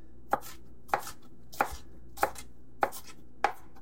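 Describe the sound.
A knife coarsely minces food on a cutting board in six sharp, evenly spaced chops, each a crisp thud with a short click, with no voices.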